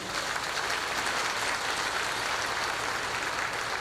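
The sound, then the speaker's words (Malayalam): Audience applause at the Kreupasanam Marian Convention at Vallarpadam, a loud, dense and steady wash of many hands clapping that holds an even level throughout, with no voices standing out. “നമ്മുടെ പ്രാർത്ഥനകളും ആശംസകളും നന്ദി അറിയിച്ച് നമുക്ക് ഉച്ചത്തിലൊന്ന് സന്തോഷത്തോടെ കൈയടിക്കാമോ?”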